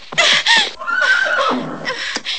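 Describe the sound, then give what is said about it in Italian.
A panicked horse neighs with a loud, shrill whinny that quavers and wavers in pitch, followed by a few shorter, lower neighing bursts. “Candy si precipita fuori in tempo per vedere il cavallo di Annie che come impazzito è partito di gran carriera.”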